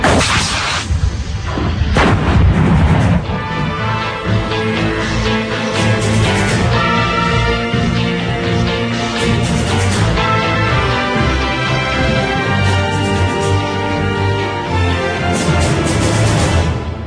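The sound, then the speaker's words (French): Artillery gun firing after the charge is loaded by hand and the breech closes automatically: heavy booms cluster in the first few seconds, then a dense, loud, sustained roar carries on with little pause. “The charge goes in manually. Fermeture automatique de la culasse. The breech closes automatically. Et bien sûr, tir.”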